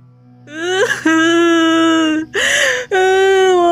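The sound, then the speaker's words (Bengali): A pregnant woman cries after falling to the ground, giving three long, loud wails at a fairly steady pitch, each separated by a brief break. “ভাইয়ের গর্ভবতী বউটা মাটিতে আছড়ে পড়ে কাঁদছে”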